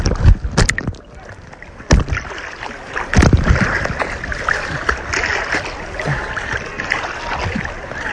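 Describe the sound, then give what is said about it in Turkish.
Splashing and sloshing of a person swimming in sea water, a continuous wash of churning water broken by a few sharper splashes early on. “Şu an su da yutuyorum aranızda. Bir taraftan size konuşunca, bir taraftan telefonu şey yapınca yüzmesi kolay olmuyor.”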